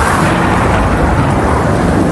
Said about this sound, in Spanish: Agua acompañada de granizo que en tan solo minutos cubrió la ciudad de blanco y provocó inundaciones y colapsos viales